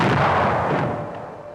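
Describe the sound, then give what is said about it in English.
Archival recording of bombs falling on ships in the Pearl Harbor air raid, a loud rumbling blast already at full strength that slowly fades away over about a second and a half; no voices. “those are the bombs dropping on the ships.”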